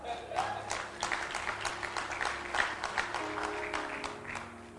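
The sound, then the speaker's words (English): Applause from a church audience at the opening session of a gathering. Individual claps stand out in a moderate, fairly quiet round that lasts several seconds. “It's, clap your hands for him.”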